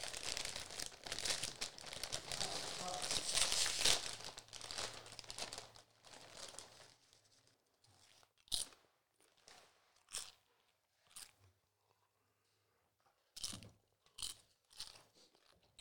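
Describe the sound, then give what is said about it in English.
A bag of regular tortilla chips crinkles and rustles loudly for several seconds as it is opened, then a series of sharp, crisp crunches follows as chips are bitten and chewed, separated by quiet pauses. “I'm going to crack into these regular tortilla chips and try to get the taste out.”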